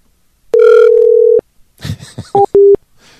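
Telephone dial tone heard while calling someone back: a loud, steady electronic hum lasts about a second and cuts off sharply. A short stretch of other noise follows, then two brief electronic beeps.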